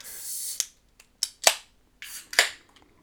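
A beer can being opened: an initial hiss, followed by several sharp cracks and pops with short gaps between them.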